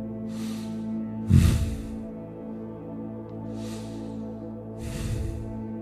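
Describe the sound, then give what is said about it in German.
Deep, deliberate breaths taken as the final step of a morning routine: four slow, airy breath sounds rising softly over a steady, sustained musical drone, with no speech. “Im letzten Schritt deiner Morgenroutine nimm ein paar bewusste, tiefe Atemzüge.”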